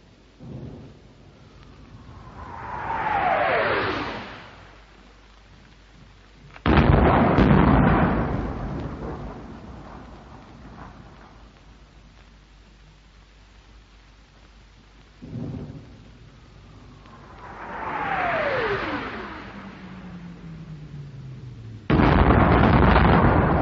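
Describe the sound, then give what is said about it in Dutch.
Artillery guns firing on German positions across a river bank: twice a shell's whine falls in pitch overhead and ends in a heavy, rumbling crump, with a lesser thump between them. “And now here are our guns starting up, away behind us. And then whining overhead and crumping down on the German positions on the far bank.”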